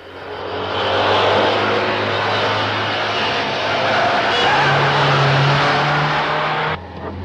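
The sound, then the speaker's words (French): Engine of a Citroën 2CV car driven furiously, a loud, continuous motor roar lasting the whole stretch with a steady low hum beneath, shifting abruptly just before the end. “quand le gendarme de Saint-Tropez fait du stop et qu'il voit une deux chevaux s'arrêter, il est tranquille comme Baptiste, sauf que sœur Clotilde conduit sa voiture furieusement”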